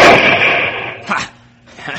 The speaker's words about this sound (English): Good shot